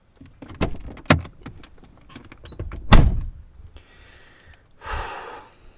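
Car door sounds as someone gets out of a car: a few sharp knocks and thuds, then one heavy slam in the middle, followed by a brief rushing noise and a softer thump near the end, with no voices.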